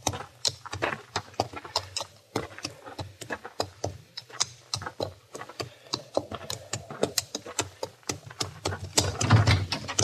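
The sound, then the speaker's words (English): A shod horse clip-clops with many crisp hoof strikes in an uneven, walking rhythm across ten seconds. The horse has a pebble wedged between its shoe and hoof, and the strikes stay fairly loud and sharp throughout. “Wedge this pebble between the shoe and the hoof of my horse.”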